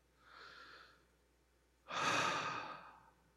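A deep breath drawn and let out alone: a softer airy breath first, then a longer, louder, rushing exhale that swells and fades like a sigh.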